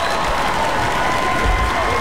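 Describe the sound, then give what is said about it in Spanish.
Applause fills the whole short moment: dense, steady clapping from a group, loud and even throughout with no pauses. “Aplauso para ti.”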